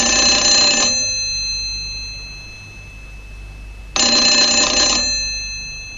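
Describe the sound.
A telephone rings in two loud bursts, about three seconds apart, as the hospital calls. Each ring is a steady, bright electric trill and is heard alone.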